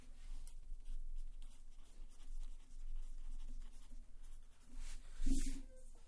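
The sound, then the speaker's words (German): Felt-tip pen drawing lines on a sheet of paper: faint, continuous scratchy strokes that come in soft waves. One sharper, louder stroke stands out near the end. “Ich brauche gerade hier einen Filzstift, um mir die Linien zu zeichnen.”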